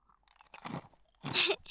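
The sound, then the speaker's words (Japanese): A pet crunching dry kibble bought at a convenience store: two short bursts of crisp, crackly chewing separated by a brief pause, fairly faint and with no talking. “ご飯だよ。お腹空いたでしょ。コンビニでドライフード売っててよかったよ。”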